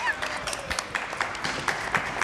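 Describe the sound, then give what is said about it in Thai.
Dense, steady audience applause for a child at a children's drawing presentation event, with many overlapping hand claps running through the whole stretch at a fairly even loudness. “ปรบมือให้น้องทีเจหน่อยนะครับ”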